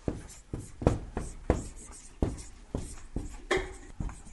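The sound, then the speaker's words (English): A pen writes out a Bible verse by hand, making many soft scratching strokes in an uneven rhythm, each a short faint scrape with small pauses between them. “But let me just, first of all, write down verse 9, let the lowly brother boast in his exaltation.”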